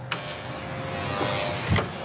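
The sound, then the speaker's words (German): Vacuum cleaner running as the hallway of a rented apartment building is cleaned, a steady, dense motor drone that holds constant throughout. “Der, den ich besuche in seinem Hausflur, wird gerade geputzt und gesaugt in dem Mietshaus.”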